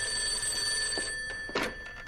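A telephone rings in an art studio, a steady high tone held throughout, with a few soft knocks near the end.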